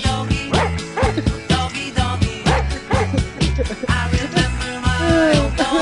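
A dog barking and whimpering, with many short, sharp yips and barks mixed with high, whiny cries in a fast, uneven rhythm, loud throughout.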